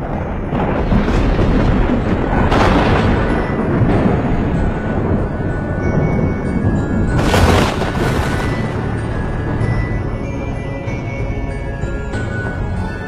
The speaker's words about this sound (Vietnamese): hàng loạt những cột sét giáng xuống